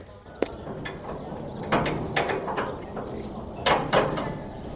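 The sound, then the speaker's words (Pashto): A prison cell door being unlocked and opened: several sharp metallic clanks and rattles over a low, steady background hum, fairly faint overall. “دروازه خلاصه کړه”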